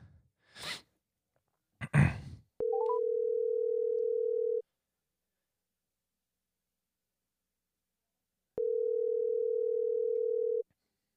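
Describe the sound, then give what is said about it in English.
An outgoing telephone call rings back with two long, steady tones of about two seconds each, split by a long silent gap and preceded by a couple of brief rustling bursts. “I'm going to call him, and you'll probably hear it ring.”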